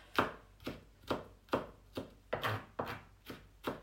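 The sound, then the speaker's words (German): A knife chops garlic slices into smaller pieces: nine evenly spaced, moderately soft chops in a steady rhythm, with no talking. “Ich mache den jetzt ganz klein, also diese Scheiben schneide ich auch noch einmal kleiner.”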